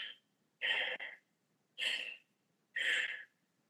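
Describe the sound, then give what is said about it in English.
A voice imitates fast, shallow over-breathing: a few quick, breathy puffs of air in an even rhythm, each lasting under a second, separated by short pauses. “Most of us, because we're over-breathing, we tend to take too many breaths per minute, and they tend to be a little shallow. You can see and listen to people at airports. It sounds like this.”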